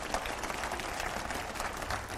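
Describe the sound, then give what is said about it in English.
An audience applauds for the mothers in attendance with dense, steady clapping that stays even and fairly faint throughout, with no voices standing out. “if I can get a round of applause for the mothers in this audience”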